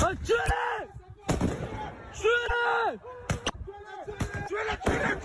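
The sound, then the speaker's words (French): Firework mortars fired at police, heard as several sharp booming blasts scattered among loud shouting voices, the bangs cutting abruptly through the yelling. “Et puis ces bruits sourds, des tirs de ce que l'on appelle des mortiers d'artifice, des engins pyrotechniques”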